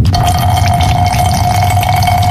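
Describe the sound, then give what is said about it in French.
A man urinates into an airplane toilet during turbulence. A continuous liquid trickle and splatter runs over a steady tonal cabin hum and low drone, with no talking. “Putain de turbulence! Pas moyen de pisser droit ici”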